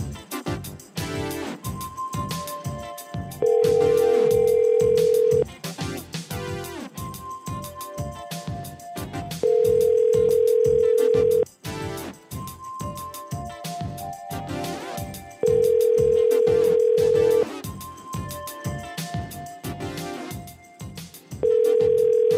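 Ringback tone of an outgoing phone call: a steady mid-pitched tone sounds in long two-second bursts at even intervals, three full and a fourth cut off, over a busy rhythmic background.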